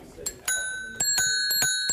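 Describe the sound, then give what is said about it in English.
A bicycle bell in a bike shop gives a few bright metallic dings. The sharp strikes overlap into sustained, high ringing overtones. “I always like a good bell on a bicycle, and I see you've got quite a few here.”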